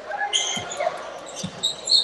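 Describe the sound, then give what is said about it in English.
Basketball dribbled on the court during a game, a few dull, low bounces spaced apart, with light high-pitched squeaks and faint talk around them. “He's going to dribble up to the wing.”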